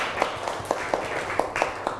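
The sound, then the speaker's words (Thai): Schoolchildren clap for a classmate who answered correctly in class. The claps are quiet, sharp and evenly spaced, forming a steady rhythmic run over a soft background. “ปรบมือให้เพื่อนหน่อยเก่งมาก”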